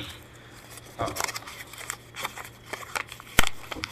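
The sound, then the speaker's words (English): Faint crinkling and rustling of a paper slip pulled from a hat and unfolded during a party game. Scattered soft crackles and rustles sit over a steady low hum, with a sharper crinkle near the end. “But, all right, let's pull a name out of a hat here. It's not necessarily a name. Well, it's a topic.”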